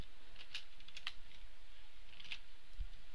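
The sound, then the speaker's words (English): Typing on a computer keyboard while code is entered gives a few soft, sparse key clicks at an uneven pace. They sound faint over a steady low hiss. “Now let's type out that function.”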